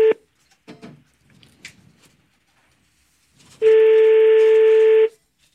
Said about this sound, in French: Allô? Non, ça sonne pas. Ça va sonner.